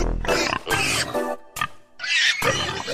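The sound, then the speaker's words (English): Pigs squeal in several loud, harsh, strained bursts in quick succession, with short gaps between them and some lower grunting. “Squealing pigs and all”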